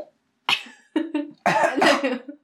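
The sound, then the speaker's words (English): A pet coughs and chokes on pieces of food: a few harsh, raspy coughing bursts, the last one longer and strained, with short silent gaps between them. “he can't breathe. He's choking on them.”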